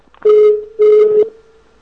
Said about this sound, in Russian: Сейчас мы с вами позвоним.